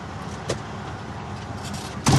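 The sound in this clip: A truck cab door and vehicle noise as a driver climbs into an 18-wheeler at an ethanol plant. A steady rumble carries a brief knock early on, then a louder clunk of door noise near the end.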